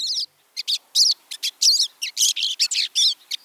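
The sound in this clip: Pine siskin song: a short opening note, a brief pause, then a rapid, run-on stream of many buzzy, twittering high chirps, loud and alone.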